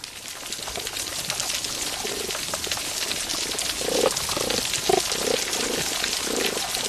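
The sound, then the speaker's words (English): Healthy coral reef soundscape heard underwater, a dense, unbroken crackle of many snapping shrimp, fairly faint and steady throughout. “So, you know, it's an incredible soundscape when you hear a healthy coral reef. And in that, you could hear the snapping shrimp, many more of them.”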